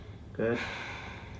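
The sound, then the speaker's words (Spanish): A deep breath drawn by a patient during a Lyme disease medical exam: one short, breathy intake swells briefly, then fades into soft, steady breath noise. “Respira hondo.”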